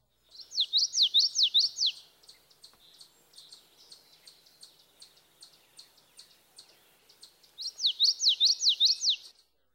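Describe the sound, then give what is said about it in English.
A common yellowthroat sings two bouts of high, rolling song, each a quick run of repeated two-syllable phrases. Faint, evenly spaced ticking chirps fill the gap between the bouts. “The notes of the yellowthroat's vocalization are normally connected, and this gives a rolling quality to his song.”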